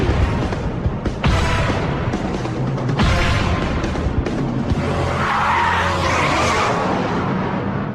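A car in a video game drives fast and skids, with a loud, continuous roar of engine and tire noise throughout, swelling in a few harsh bursts of squealing texture.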